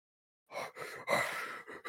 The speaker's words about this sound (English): Why is there heavy breathing during this?